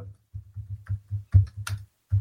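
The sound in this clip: Computer keyboard typing as a link and password are entered into a chat: a quick run of soft, uneven key taps, a brief pause, then a final few taps, with no voices.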